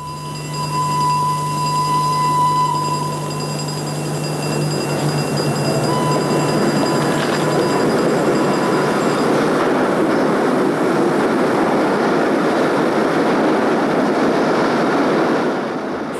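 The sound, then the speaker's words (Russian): A locomotive arriving under the vaulted roof of Chiusi railway station, a loud, steady rumble of a train with sustained tonal humming and whining that fades partway through as the rolling noise continues. “День августа, 3 часа пополудни. Гвидо на вокзале в Кьюзи с букетом цветов. Под своды входит локомотив.”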